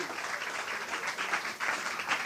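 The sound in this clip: Applause for contestants at a Christmas game event, where a player has just received a bauble as a consolation prize: even, continuous clapping with small swells and a brief dip near the end, moderately quiet and with no talk.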